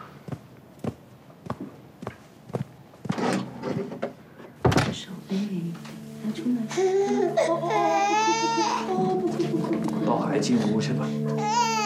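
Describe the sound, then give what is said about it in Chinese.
A baby cries in wavering, high wails that build and hold through the second half, after a run of footsteps and a heavy door thud; adult voices are heard alongside. “哦，不哭不哭不哭，抱孩子进屋去吧。”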